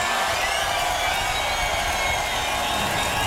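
A festival crowd at Tomorrowland cheers and applauds a performer in a dense, loud, unbroken roar that holds steady throughout.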